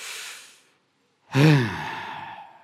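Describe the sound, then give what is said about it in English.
A deep breath: a soft breathy exhale fades out, and after a short silence a louder, slightly voiced sigh rises sharply and trails off slowly. “So, take a deep breath.”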